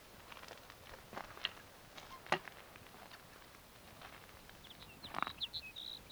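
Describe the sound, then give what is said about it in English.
Sage sparrow song: a few faint, brief, high-pitched phrases spaced apart, with soft ticking and pattering underneath. “Here's sage sparrow number three.”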